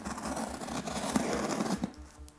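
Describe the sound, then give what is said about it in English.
Packaging of a Revolver box set is torn open with faint, continuous scratchy rustling and crinkling, trailing off into quieter scrapes at the end. “Wowie, it just arrived. Revolver box set. It's in the box. Let's tear this thing up.”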